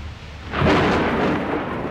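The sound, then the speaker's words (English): Thunder rolls through a heavy summer storm after hot, oppressive weather. A deep, loud rumble swells suddenly a third of the way in over a steady hiss, then slowly fades. “One night, the hot, oppressive weather of the summer erupted in heavy storms.”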